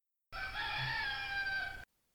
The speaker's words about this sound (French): Le chant du coq enroué monta d'une métairie.